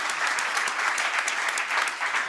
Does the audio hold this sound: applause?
yes